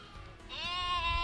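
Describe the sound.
Churra sheep bleating amid a flock of about 270 at a country farm. One loud, drawn-out, quavering bleat rises out of a low rumble of background noise.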